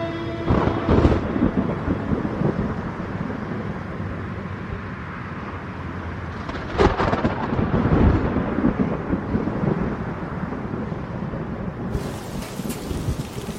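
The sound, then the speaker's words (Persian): Steady rain falls in a radio drama scene outside a house courtyard in Tehran, a dense even hiss with a few deeper rumbles of thunder swelling through it and no voices. “داره بارون میاد. چترش رو باز میکنه.”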